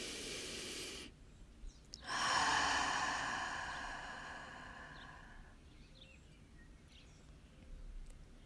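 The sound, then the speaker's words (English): A deep breath taken in through the nose and let out through the mouth during a guided breathwork meditation. It is a soft, faint, airy rush that swells and slowly fades, alone without talk. “Take a deep breath in through the nose and out the mouth.”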